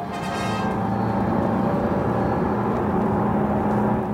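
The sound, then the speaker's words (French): Steady engine and road noise from a powerful blue car on the move, a continuous even rumble with a light whirring hiss that holds at a constant level throughout, with no voices. “nos amis prennent bientôt place dans une puissante voiture bleue.”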